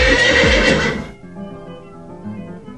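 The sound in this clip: A mare whinnies on a farm: one loud, harsh neigh lasting about a second, then a quieter, trailing tail that fades out.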